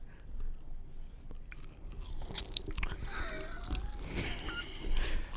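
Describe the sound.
Someone bites and chews crunchy food for an ASMR recording, with many crisp, irregular crunches and wet chewing sounds throughout.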